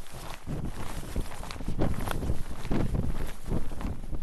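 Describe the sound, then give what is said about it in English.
Footsteps crunching through nearly a foot of fresh powder snow on an uphill hike in freezing cold, with a loud, steady rush of wind whipping past throughout. “We hike up a rise through almost a foot of fresh powder. It's freezing with the temperatures in the teens. The snow's whipping sideways.”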